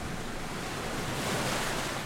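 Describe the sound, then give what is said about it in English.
Salty sea water rushes over a person's body: a dense, continuous wash of surf noise that swells slightly toward the middle, with no voices. “She had a vague vision of the smoke-covered sky, which was blurred by the salty water rushing frequently over her body.”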